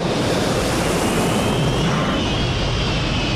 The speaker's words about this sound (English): A plane comes into land through an orange sky.